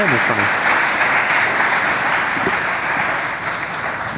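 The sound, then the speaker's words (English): An audience at a ministry gathering applauds to welcome guests, a thick, continuous roar of clapping held at a loud, steady level, with a voice briefly heard over it. “Welcome, welcome. Y'all give them a hand.”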